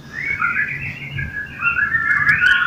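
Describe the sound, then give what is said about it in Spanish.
Small birds trill and whistle at dawn on a June morning, a steady run of high, warbling song that carries on without pause, with brief sharper chirps toward the end over a faint low rumble. “nos sorprendieron los trinos de los pajarillos”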